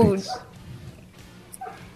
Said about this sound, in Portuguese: Ouviram a sua voz e resolveram dar boa noite também. E tu vê como eu sou no bairro, é os cachorros, né?